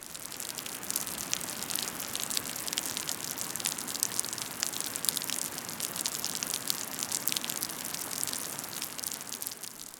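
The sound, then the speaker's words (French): Heavy rain falling as a dense, steady hiss packed with countless crisp patters and drips, unbroken and fairly loud throughout, with no voices. “J'ai ouvert les volets et j'ai vu qu'il y avait des gouttes d'eau qui provenaient de nuages qui étaient en train de tomber sur le sol. Il pleuvait. Il pleuvait même drôlement fort.”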